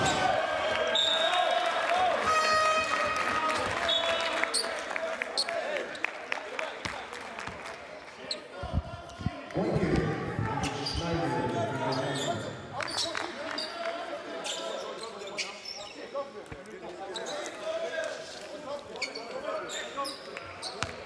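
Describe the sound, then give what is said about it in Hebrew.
A basketball bounces amid a dense din of voices at a youth national team's training camp game, where teammates, families and community members call out and cheer throughout. “נבחרת הנוער שלנו נמצאת שם במחנה אימון, במשחק, אתה שומע קצת החבר'ה מעודדים, אולי גם בני משפחות, אולי גם קהילה טיפה.”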